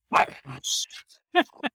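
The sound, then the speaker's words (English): A small female dog barks at a passing car, a few short, sharp yaps in quick bursts, with some talk mixed in. “a car just went by. That's a good bark for a little girl.”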